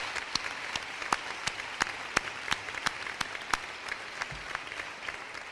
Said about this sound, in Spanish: También me gustaría un aplauso, son padres, son personas que conviven conmigo aquí en otros deportes.